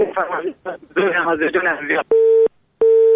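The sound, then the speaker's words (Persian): Telephone busy signal after a phone call dropped, two steady identical beeps following a stretch of talk, each tone about half a second long and separated by a short silence. “متاسفانه تماس برادر ما قطع شد و ما نفهمیدیم که کدام آهنگ فرمایش دادن.”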